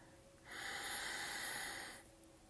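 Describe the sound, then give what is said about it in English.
One deep breath taken during a guided relaxation exercise: a quiet, airy rush of air that swells, holds steady for about a second and a half, then fades, with nothing else around it. “Closing our eyes and taking a deep breath.”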